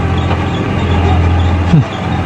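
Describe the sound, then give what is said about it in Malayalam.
Low diesel drone of a JCB excavator run by D C Contractors, moving soil to fill a riverbank: a steady, loud engine hum throughout, with a brief squeal just before it dips near the end. “ഇത് നമ്മളെ ഹിമാമി hotel ഗ്രൂപ്പുകാരുടെ പണിയേറ്റെടുത്ത D C കോൺട്രാക്ടേഴ്സിന്റെ J C B ആണ്. ഈ മണ്ണ് കൊണ്ടുപോയിട്ടാ പുഴക്കര നേരത്തുന്നത്.”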